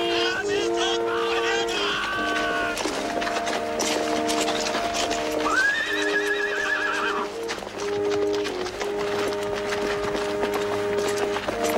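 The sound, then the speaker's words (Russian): Riders on horses circle a palace square, hooves clip-clopping steadily, with a loud whinny near the middle and sustained tones underneath. “Всадники на лошадях объезжают Дворцовую площадь.”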